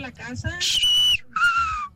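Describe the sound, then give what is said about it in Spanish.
A human whistle used by a father as a call to his children: two sustained, clear whistled notes, the first higher than the second, following a brief stretch of voice at the start. “Chiflido de mi padre en paz descanse cuando nos hablaba.”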